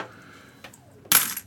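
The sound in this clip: Coins drop as payment for a card in a tabletop game. A faint click comes first, then a bright, loud metallic clatter near the end.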